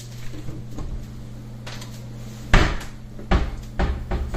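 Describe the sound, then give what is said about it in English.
Metal barbecue utensils, a meat fork, tongs and a spatula, are grabbed and handled, giving a few sharp knocks and clatters over a steady low hum. “let me grab my meat fork. I bought a meat fork for barbecuers. because I can't grip. Okay, these are my tongs. That's my spatula. There's my meat fork.”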